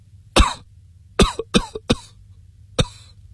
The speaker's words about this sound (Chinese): 又是一阵剧烈咳嗽，好容易咳定，喘着气